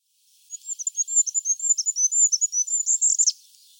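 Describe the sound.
A goldcrest calls in a rapid series of very high, thin notes that run for about three seconds and end in a brief flourish, with no other sounds or voices.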